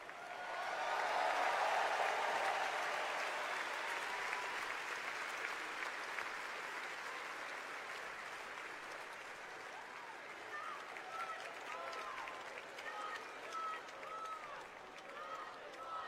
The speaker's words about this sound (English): You can hear chants from the bowl, not one more, not one more.